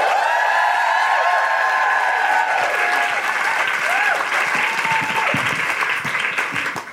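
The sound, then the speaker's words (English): Audience applause and cheering welcome a spoken word performer to the mic at a live show. Many hands clap loudly with a few raised voices at first, and the clapping thins and fades toward the end. “Put your hands together and welcome to the mic to perform the wonderful Coco Brown!”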